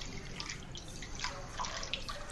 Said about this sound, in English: Are you taking a bath through this podcast? Yes, I'm in the bathtub.